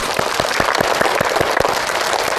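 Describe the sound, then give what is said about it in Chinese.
A class of schoolchildren applauding to congratulate a winning team, a dense, steady clatter of many clapping hands, loud and continuous throughout with no talk. “鼓掌。”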